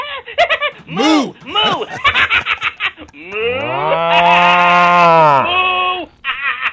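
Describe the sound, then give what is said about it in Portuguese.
Cows moo on a farm during milking: a few short calls, then one long, loud, drawn-out moo lasting about three seconds. “Ele liga o celular lá e o radinho lá, na verdade, escutando a Gazeta e as vaquinhas, ele tirando leite e as vaquinhas, ó.”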